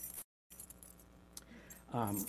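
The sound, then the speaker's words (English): Keys jangling, bright metallic jingles in short bursts, broken by a brief silent gap, with a voice beginning at the very end. “If you've got your keys handy, you know, this key is worth like $350. You know, keys don't look like they used to look.”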